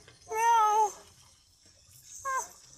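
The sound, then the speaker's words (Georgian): A small cat or kitten meows twice, softly. The first meow is longer and wavering, and the second is a short, higher chirp, with quiet background noise between them. “პატარა ფისუნია.”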